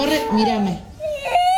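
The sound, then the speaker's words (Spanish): A little girl cries with emotion, giving wavering sobs that fall in pitch, then a thin rising whimper, fairly loud and close. “unos se ponen contentos y otros, como esta nena, se pone mal, se emociona, mirá, llora.”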